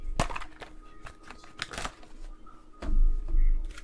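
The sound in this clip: Handling of football game playbook and roster cards, a few sharp flicks and papery rustles as the cards are shuffled and sorted, followed by a softer, fuller rustle.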